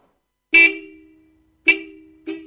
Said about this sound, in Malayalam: ഒരു കാറിന്റെ സൗണ്ട് അല്ലേ ആ കേട്ടത്?